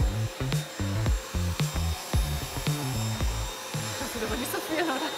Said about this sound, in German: Dreimal wird der Sauger hin und her bewegt.